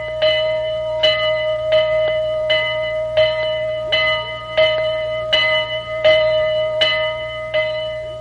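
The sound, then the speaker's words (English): Bell of a restored historic steam locomotive: many loud, evenly spaced metallic strokes with a bright ringing tone that decays between hits, over a faint low hum. “That's the sound of the bell. That's the bell of the General. That's the actual bell, too”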